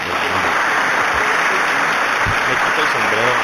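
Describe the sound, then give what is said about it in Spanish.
An ovation of applause: a dense, unbroken roar of clapping at constant loudness from start to finish, with a voice faintly audible beneath it. “Una ovación.”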